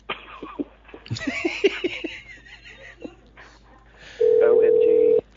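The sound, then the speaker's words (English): A telephone ring tone in a home, heard as one steady electronic tone lasting about a second near the end, after a stretch of lively voices and laughter. “You guys are going to hear some ringy-dingies going on here in the background. Don't be alarmed. That's just the phone ringing.”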